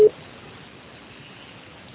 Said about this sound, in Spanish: grabe su mensaje, grabe su mensaje después del tono.